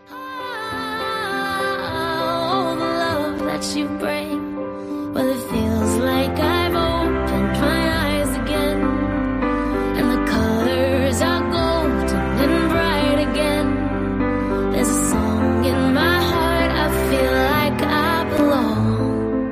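A pop song plays with sung vocals over a steady drum beat and a firm bass line, full and continuous throughout with bright layered instruments on top.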